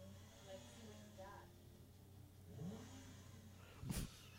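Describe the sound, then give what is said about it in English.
A street-racing car engine revs and accelerates, heard faintly beneath people talking. A low engine tone climbs in pitch, then a short louder burst of revving follows near the end. “Oh, now he's going to race. Who is this? Oh, he's going to race the chick hot now.”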